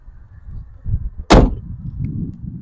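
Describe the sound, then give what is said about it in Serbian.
A Porsche 924 car door slamming shut once, a sharp, heavy thud standing out loudly above a low background rumble. “Ovaj, ti kad zatvoriš ta vrata, to, to su ti trebale te istočno-borilačke veštine da ti to zatvoriš”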